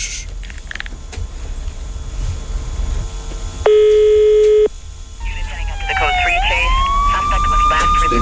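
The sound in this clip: A telephone ringback tone on a live prank call to a cybercrime unit: a single steady, buzzy tone lasting about a second over background noise, followed by a rising, wavering siren-like electronic tone.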